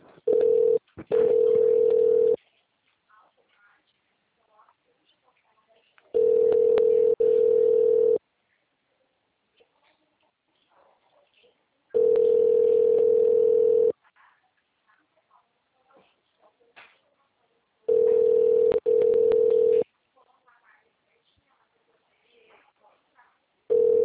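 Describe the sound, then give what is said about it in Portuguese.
Telephone ringback tone while a call is being transferred: four steady, mid-pitched tone bursts of about two seconds each, separated by long quiet gaps. “Transferindo a sua ligação. Por favor, aguarde.”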